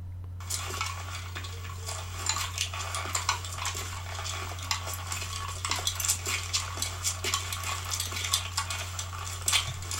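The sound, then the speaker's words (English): Metallic jangling from a police detective's clothes as he walks in a movie opening: many irregular clinks and rattles over a steady low hum, with no voices. “I just want to play you some of that clothes jangling, because this goes for, no joke, 3 minutes with nothing else playing, and is the craziest way that I've ever heard a movie open.”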